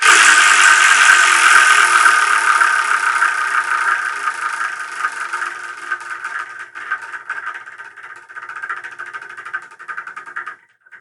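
A spinning number wheel whirs with a fast, dense rattle of clicks that gradually thins, slows and fades as the wheel loses speed, ending on a final tick.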